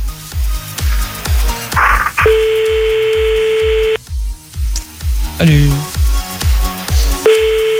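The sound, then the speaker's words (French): French telephone ringback tone on an unanswered prank call. Two long steady beeps are separated by a gap, over a continuous thumping rhythmic beat. “Bon, c'est pas grave, on va prendre un autre numéro. Ça décroche pas celui-là”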